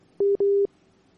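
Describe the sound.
A telephone busy tone follows a dropped call: two short, steady mid-pitched beeps in quick succession, the second slightly longer, then quiet.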